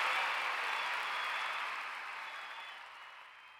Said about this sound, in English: That's supposed to be a lot of applause, but it sounds a bit like an aggressive rain.